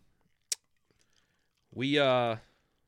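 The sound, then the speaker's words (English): A beer can cracks open with a single sharp, bright snap, followed after a pause by a sustained voiced sound from a person. “We open the episode, as always, with a crack of a beer can.”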